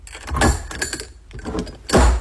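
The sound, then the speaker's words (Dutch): The lid of a small herb jar is opened and then closed, giving a few gritty scrapes, clicks and rattles. The two loudest bursts come near the start and near the end. “Het openen en sluiten van mijn kruidenpotje.”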